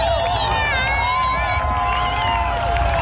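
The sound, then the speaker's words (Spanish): A crowd cheers and shouts during a solar eclipse in Washington. The high, bright voices form a steady, continuous roar of excitement with no pauses. “Un momento celebrado por el público.”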